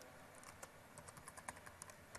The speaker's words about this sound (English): I want the deployment script, so I'm going to type Azure site